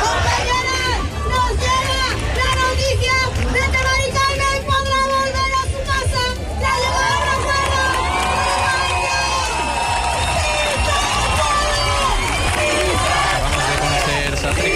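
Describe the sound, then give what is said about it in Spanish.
Protesters at a tenants' rally in Seville sing and chant together in a dense, loud crowd, with cheering voices and babble throughout. “Los manifestantes siguen cantando y agitando los llaveros de sus casas.”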